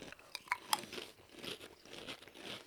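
Barbecue-flavoured Pringles crisps being crunched: a few sharp, crisp snaps followed by softer, irregular chewing, all faint.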